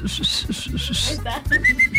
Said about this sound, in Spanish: ¿Tú chiflas mejor que yo? Yo soy puro aire.